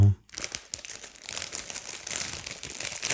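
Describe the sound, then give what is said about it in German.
Crinkling of a bag of shelled walnuts being handled and passed across, a dense, continuous rustle that breaks into a short quiet gap near the start and then carries on steadily to the end. “Gib dir mal die Tüte rüber.”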